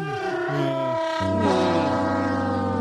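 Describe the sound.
A train locomotive horn sounds a loud, sustained chord of several tones. Partway through, the chord shifts to a different set of pitches and keeps sounding steadily, with no voices over it.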